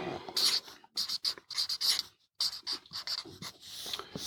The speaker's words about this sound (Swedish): Och jag tänkte jag skulle försöka rita upp det här.